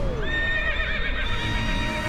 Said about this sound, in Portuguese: Vem aí o quinto arrancadão de corrida de cavalo da Fazenda Progresso, na comunidade Araça Branco, Salé.